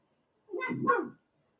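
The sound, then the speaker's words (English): A dog waiting for its owner to come home gives a single short, quiet whining bark in two quick parts, alone against silence. “that's my dog, Aiden, waiting for my wife to come home.”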